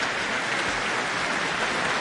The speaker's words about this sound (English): Rapturous applause from the audience, who seem very pleased.